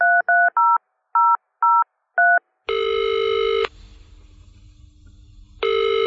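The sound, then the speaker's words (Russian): A woman at home dials a telephone number, producing six short, clear keypad tone beeps in an uneven rhythm. Two long, steady, loud ringing tones follow, separated by a quieter pause. “Доехав до дома, я немедленно позвонила мужу.”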